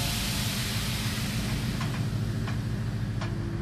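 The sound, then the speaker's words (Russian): A train pulling away from a platform in the film City Zero, a steady low rumble under a broad hiss with a few faint clicks and no voices. “Поезд трогается, медленно набирает скорость.”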